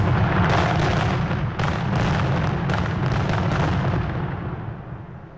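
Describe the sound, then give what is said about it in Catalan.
Fireworks rockets going off: a dense, continuous barrage of loud booms and crackling bursts overlapping for several seconds, easing slightly toward the end. “Són coets o és el meu cor? Són coets.”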